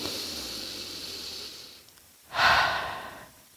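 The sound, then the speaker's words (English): A single deep breath swells up as a loud, breathy rush of air after a stretch of soft hiss, then tapers away near the end. No one speaks. “let us all just take a breath. Just take a deep breath”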